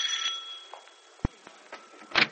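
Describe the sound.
A doorbell ringing, a faint thin bell tone with a brief click midway and a brighter burst of chiming at the end.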